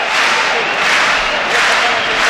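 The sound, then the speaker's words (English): Bordeaux rugby crowd clapping in unison as a kicker lines up a place kick, a loud, dense and steady wash of hand claps and crowd noise throughout. “As the Bordeaux crowd clap him in his effort to kick it. He's got the distance, has he got the accuracy? Nailed it. Gunn Aarons nails it. Something very cool about a slow hand clap for a place kick as opposed to funereal silence.”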